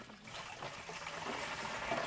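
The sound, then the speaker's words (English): Water pours into plastic jugs at a borehole in a drought-stricken area, making a faint, continuous splashing trickle that stays steady throughout, with no voices. “Kibwezi's chief, Benson Ngutu, watches as women pour water into yellow jugs strapped to bicycles”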